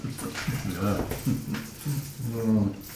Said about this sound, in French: Il est ridicule, ton chien. Avec ses poils ras et jaunes.